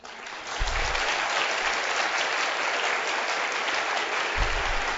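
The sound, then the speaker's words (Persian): Audience applause during a Persian-language speech: dense, steady clapping that holds at an even loudness from start to end, with no speech over it. “اینم من به شما بگم که شما دست بزنید یا دست نزنید اینم تأثیری نداره که مثلا من تحریک بشم بیشتر بگم یا نه”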